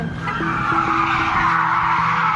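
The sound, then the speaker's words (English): Tires screeching during a police car chase after a blue Toyota Corolla, a sustained high-pitched squeal holding steady across the whole stretch over a low rumbling engine drone. “You can hear a siren and tires screeching in the background.”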